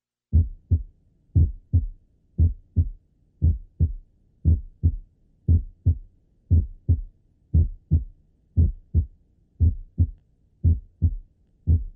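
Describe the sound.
Heartbeat heard over the chest between the apex and the sternum, each beat split into two low thudding components of about equal loudness, repeating steadily about once per second and alone throughout.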